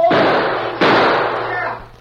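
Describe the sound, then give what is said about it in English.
Two gunshots fired at a boy by an outlaw during a holdup in a dramatized western scene: two sharp, loud reports about a second apart, each trailing off in a short decaying rumble. “snapped two shots at the boy. One got him.”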